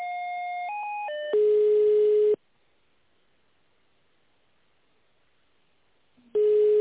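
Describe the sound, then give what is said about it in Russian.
Line tones as a telephone call is transferred to the contracts department: a few stepped electronic tones lead into a steady held tone, then a long silence, and the steady tone returns at the end. “Секунду, я переключу вас к контрактному службу.”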